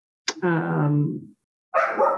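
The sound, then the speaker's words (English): A dog barking at home in two loud bursts with a short pause between them. The first is a drawn-out, strongly pitched bark, and the second is shorter and rougher. “Now my dog is barking because I'm about to have a child come in my house.”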